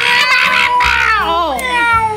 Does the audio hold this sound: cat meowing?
yes